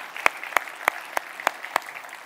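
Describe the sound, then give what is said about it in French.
Congregational applause honoring fathers at a Father's Day morning service: a steady bed of clapping punctuated by six sharp, evenly spaced loud claps in a rhythmic beat. “Est-ce qu'on peut applaudir tous les papas ici ce matin et leur dire qu'on les aime?”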